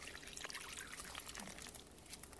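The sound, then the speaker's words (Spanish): Water poured from a jug onto crumbled stale bread in a serving dish makes a faint, steady trickle and soft splashing that runs without a break. “Le echa el agua de una jarra.”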